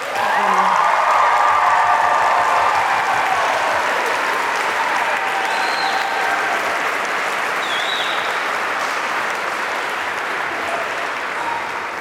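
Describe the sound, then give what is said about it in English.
An audience gives loud, sustained applause for an elderly 82-year-old woman at a choir concert, a dense roar of clapping that begins at full strength and eases slightly over twelve seconds without stopping. “I wonder if we could give that lovely 82-year-old up there a big clap”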